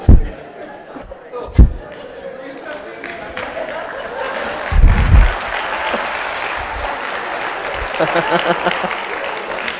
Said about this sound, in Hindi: सो तालियां बजाओ, अच्छा मौका है, थोड़ा बाहर वालों को पता चले.